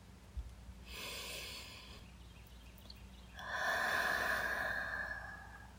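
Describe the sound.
Breathing in close to someone asleep under a blanket, smelling them: a softer breath of about a second, then a longer, louder inhale lasting over two seconds, with no talk.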